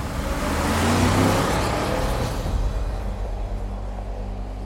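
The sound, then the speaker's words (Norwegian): A white van driving away from a quay: a loud engine rumble that swells near the start, then gradually fades to a low, steady drone. “De lemper maleriet bak i kassebilen og kjører vekk.”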